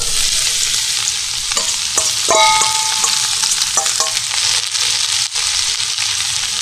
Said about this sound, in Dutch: Dat we de uien gewoon langzaamaan aan gaan fruiten. En het duurt wat langer. Niet te snel.